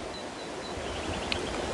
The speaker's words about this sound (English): If you can hear the river sounds in the background and the nature, I like to record in nature